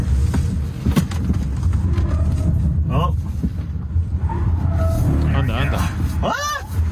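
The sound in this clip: Tires squeal as a Ford Mach-E drifts through a tricky section of a racetrack, with a few brief wavering high-pitched screeches over a constant low rumble of car and road noise, and talk running underneath.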